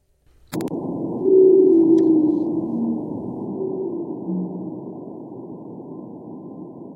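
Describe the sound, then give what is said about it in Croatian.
Pygmy blue whale song captured by nuclear-bomb detectors on the Indian Ocean floor: a deep, sustained tonal moan that starts abruptly and drones for several seconds with slight shifts in pitch, slowly fading. “Snimke pigmejskog plavog kita napravljene su u pomoć detektora nuklearnih bombi smještenih na dnu Indijskog oceana.”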